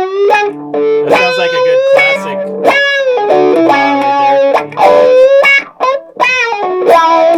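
Distorted electric guitar riff played through a three-mode effects pedal on its middle setting, with choppy repeated notes and chords, short gaps between phrases and a warbling, effected tone throughout.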